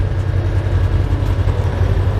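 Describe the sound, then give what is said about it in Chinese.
Roaring engine of an armored vehicle heard from inside its cabin, a loud, steady, low-pitched rumble with a dense droning hum that holds without pause, no voices over it. “装甲车舱内，发动机的轰鸣声震耳欲聋”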